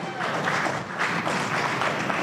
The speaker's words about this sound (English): Guys, round of applause. Come on, there we go.